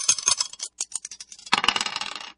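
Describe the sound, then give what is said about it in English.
Dice are thrown and roll across a surface. A run of light, sharp clicks and rattles leads into a denser burst of clattering that gradually tapers off. “And let's just throw the dice to see what we're going to play.”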